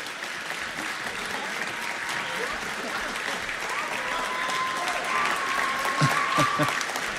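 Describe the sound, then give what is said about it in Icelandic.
An audience gives sustained applause for a band that placed second in a 2005 music contest. The clapping is dense and steady, with a whistle cutting through near the end. “Klapp, gefa þeim gott og mikið klapp og stilli ykkur svo upp í skemmtilega mynd.”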